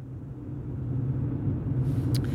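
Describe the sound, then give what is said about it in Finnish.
Steady low rumble of a car driving fast, a continuous engine and road drone that holds at an even level throughout, with no voices. “Sä ajat hirveetä ylinopeutta.”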